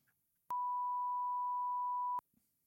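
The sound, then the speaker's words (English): A single steady, high-pitched censor beep holds for a bit under two seconds, loud and alone against near silence. “Do you have the beep ready?”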